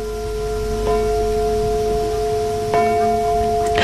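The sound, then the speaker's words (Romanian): A bell strikes ten o'clock, its strokes spaced well apart, each leaving a sustained, humming tone that lingers over a steady wash of background noise. “A sunat ora 10, e târziu.”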